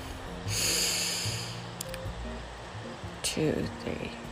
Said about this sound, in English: So, breath number one.